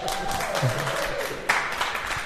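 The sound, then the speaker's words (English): An audience applauds a guest with an even, moderate wash of many overlapping claps, while a voice briefly speaks over it. “How about a round of applause for our interloper, Tom Gill?”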